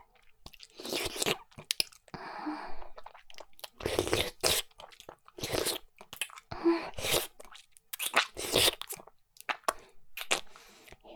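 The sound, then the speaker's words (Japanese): Chewing and eating of meat, with many wet, crunchy bursts of mouth sounds in an irregular rhythm, separated by short pauses and heard alone without talk. “なんか横からチュッチュするから食べてるみたい。お肉食べてる。”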